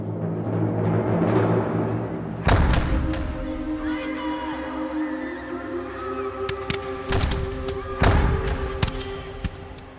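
Artillery salvo of cannon fire turned on a crowd: a few heavy, booming blasts break out over a steady tonal background, with the loudest landing early and two more close together near the end.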